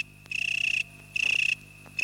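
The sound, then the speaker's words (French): An insect's courtship song, made when the female comes very close to the male: rapid, high-pitched pulsed trills in two full bursts separated by short pauses, with a third burst starting at the end over a faint steady hum. “C'est le chant de cour, émis lorsque la femelle arrive à très courte portée du mâle.”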